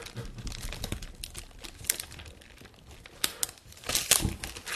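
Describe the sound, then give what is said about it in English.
Crinkling and tearing of brown duct tape as an object wrapped in several layers is unwrapped, a continuous crackly rustle with a few sharper rips and crunches toward the end. “layer of brown duct tape. Oh my. I'm extracting the object”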